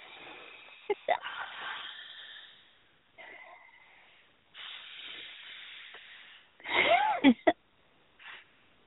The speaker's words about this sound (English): And three nice deep breaths. Three deep